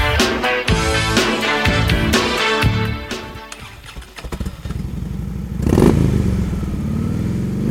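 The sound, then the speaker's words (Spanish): A Harley-Davidson motorcycle rumbles with loud, uneven revs and clattering engine pulses. It eases off briefly, then roars back up in a strong surge before settling into a steady throb. “¿quién ha dejado su motocicleta Harley Davidson estacionada nuevamente en mi lugar?”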